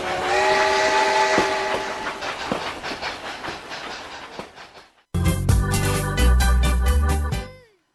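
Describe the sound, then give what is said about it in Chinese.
A train arriving at Panjin station: rumbling carriage noise with whistle tones, then, after a brief drop, a loud, sustained, harmonic whistle blast that cuts off at the end. “列车运行前方到站，盘锦站”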